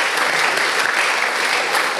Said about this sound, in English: we can have a round of applause